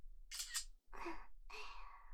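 Camera shutter clicks: a few brief, crisp mechanical bursts separated by short gaps, each ending with a softer whirring tail.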